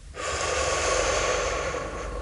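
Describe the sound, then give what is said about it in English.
A deep breath drawn in and let out, heard as one long, steady, airy rush of breath lasting about two seconds, fairly loud and alone with no talking. “Breathe in. Breathe out.”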